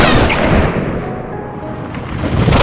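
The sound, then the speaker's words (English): A heavy, rumbling gunshot-like blast from an H&H .475 Nitro Express rifle: loud, booming noise fills the whole clip, eases slightly midway and then swells again, with no talk. “The first 475 round glanced off the droid, denting the alloy rod of its torso, the ricochet whining away into the distance.”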